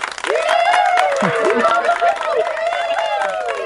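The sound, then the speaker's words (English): Studio audience cheering and applauding for a band's new bass player, a loud, dense, continuous wash of clapping mixed with whoops and shouts throughout. “Live studio audience giving it up for a new bass player.”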